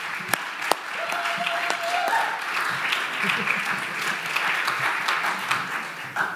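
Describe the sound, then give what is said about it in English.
Audience applause welcoming a pastor to speak, a steady wash of many hands clapping that holds at an even level throughout. “And so let's put our hands together and welcome Pastor Russ.”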